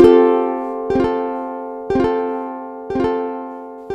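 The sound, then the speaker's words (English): At its maximum delay time, a guitar delay pedal repeats a bright plucked phrase about once per second, four repeats over a ringing sustained chord, each echo fading slightly before the next arrives. “Let's go to the maximum delay time on this particular pedal. That would sound like this.”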